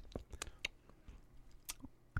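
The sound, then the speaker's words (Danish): Biting and chewing a chocolate Christmas figure, heard as quiet, crisp bite clicks and crunches at an irregular pace, with soft mouth sounds between them. “Bider du også i den? Ja, man kan, man kan jo ikke slikke på et stykke chokolade.”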